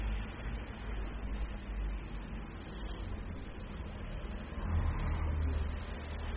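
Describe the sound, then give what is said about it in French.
Street traffic near a Paris boulevard junction with a red light: cars pull away and pass in a steady low rumble of engines and tyres that swells briefly near the end, with no talk. “Plein de voitures qui partent, qui passent, qui viennent de la rue du Four.”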